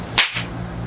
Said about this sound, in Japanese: 私が「南無阿弥陀仏火の風の実」って言ったら手叩くからそしたら飛び込んでおくれ